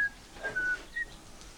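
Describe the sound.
A man whistles in a movie: a few short, faint, thin high notes with brief gaps between them.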